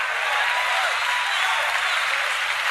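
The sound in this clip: An audience claps during a church sermon, a continuous wash of many hands clapping that holds at an even, fairly loud level for the whole clip.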